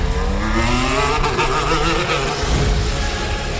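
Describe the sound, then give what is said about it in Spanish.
Formula 1 cars running in 2022 preseason testing at the Montmeló circuit produce a loud, continuous high-pitched engine roar. Layered whining tones climb as the cars accelerate past. “Tenemos ya la Fórmula 1 rodando. Lo hacen en unos ensayos de pretemporada en el circuito de Montmeló.”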